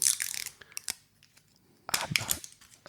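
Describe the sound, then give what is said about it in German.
Protective security film being peeled off product packaging: faint crinkling, tearing rustles in a dense burst, a few scattered crackles through a quieter stretch, then another crinkly burst. “ich mach erst jetzt die Sicherheitsfolie hier ab.”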